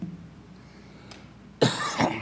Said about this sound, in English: If my voice gets too raised, I start coughing.